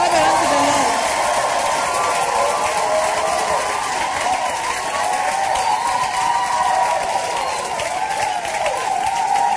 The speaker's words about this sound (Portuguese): Palmas para o Senhor.